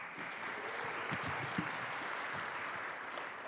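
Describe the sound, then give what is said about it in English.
A church audience applauds to welcome the pastor before his sermon on a New Year Sunday morning, a steady, even clapping that stays at one level throughout. “Let's warmly welcome Pastor Dan as he preaches the word of God to us this morning.”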